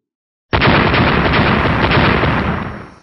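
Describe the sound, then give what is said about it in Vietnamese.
Explosive blasts as magical weapons strike an ice wall, a loud continuous rumbling roar of overlapping bursts that starts abruptly and holds steady for over two seconds before tapering off, with no talk. “Bốn tiếng nổ liên tiếp vang lên”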